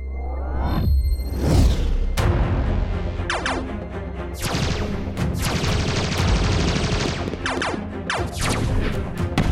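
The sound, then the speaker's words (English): A warship fires during a science-fiction audio drama, a dense, loud barrage of rapid gunfire mixed with crashing blasts and whooshes that keeps going without a break. “Ocknur warship, cease fire, cease fire. Stop shooting.”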